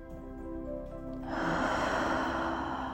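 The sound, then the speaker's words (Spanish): A deep breath drawn in during a guided breathing exercise: a soft, broad airy rush that swells and holds steadily over sustained, gentle musical tones, with no talking. “Inhala.”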